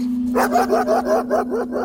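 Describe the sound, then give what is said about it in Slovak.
A dog barks in a quick run of short, sharp, fairly high barks at an even rhythm, over a steady low tonal hum. “Začuli sme brechot psa.”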